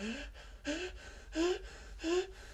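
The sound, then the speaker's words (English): Fast, frightened breathing from a scared girl in a dramatized story: four quick, voiced gasps in an even rhythm, each carrying a thin whimpering tone. “And she breathed fast. Scared out of her mind.”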